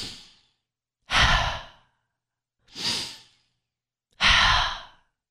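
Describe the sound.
A person takes slow, deep breaths, heard as three long breathy exhalations like sighs after the fading tail of an earlier one, each swelling and then tapering off, separated by short silences.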